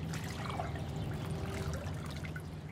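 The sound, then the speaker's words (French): Water flowing in a canal, a steady, continuous trickling wash with an even level throughout and no voices. “Et voilà le canal.”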